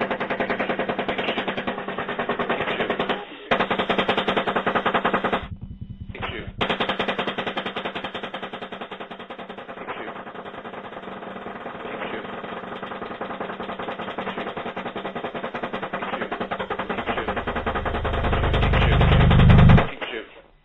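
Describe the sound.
Gunfire from a helicopter gunship: long, sustained bursts of rapid automatic fire, broken by brief pauses, ending in a rising low rumble.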